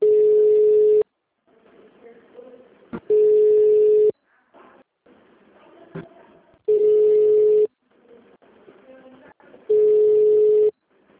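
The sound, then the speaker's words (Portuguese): A telephone tone sounds while a call is transferred to an attendant: four loud, steady single-pitch beeps of about a second each, with quieter, murky sounds filling the gaps between them. “estamos transferindo sua ligação para um de nossos atendentes. Você será atendido em até 20 segundos.”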